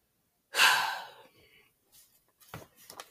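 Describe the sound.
A man takes one deep breath: a loud, airy rush that swells quickly, then tapers off over about half a second. A few faint, soft rustles and breaths follow.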